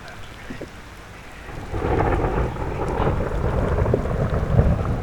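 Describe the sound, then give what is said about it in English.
Thunder rolls with rain falling. A quiet start gives way to a deep, sustained rumble that swells and keeps grumbling steadily to the end. “Where's my thunder?”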